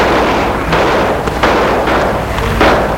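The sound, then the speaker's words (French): Gunshots ring out suddenly during an attack: a few dull, thumping shots over a steady, noisy background. “Mais tout d'un coup, des coups de feu.”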